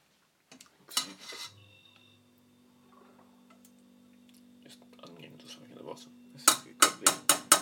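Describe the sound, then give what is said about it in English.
Slotted spoon scooping from a pot: a brief clatter early on, then a quiet stretch, then a quick run of about five sharp clinks at the end. “Slotted spoon. Try and get some of that out.”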